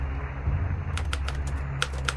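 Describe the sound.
Typing by a sailor at a keyboard: after a steady low hum, a run of several crisp key clicks begins, spaced irregularly and moderately loud.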